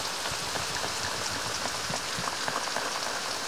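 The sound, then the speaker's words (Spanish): Rain falls steadily, making a dense and continuous patter and hiss with no breaks. “Parece que llueve otra vez.”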